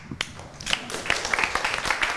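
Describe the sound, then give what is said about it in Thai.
Applause from students in a classroom after a group presentation: dense, uneven clapping that runs throughout at moderate loudness, with no voices standing out. “ปรบมือให้กับเพื่อนนะครับ”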